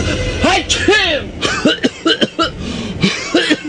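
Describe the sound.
Repeated coughing in a staged scene for a cough syrup advertisement: a run of short, voiced hacking bursts, loud and uneven, with other sound underneath.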